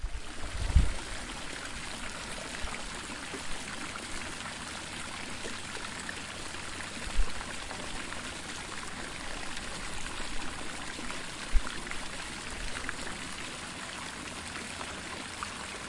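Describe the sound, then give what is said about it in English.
Steady running water flows and trickles like a stream, a continuous watery wash with a few soft low thumps along the way. “Sandy used her powers to summon water from deep beneath the earth,”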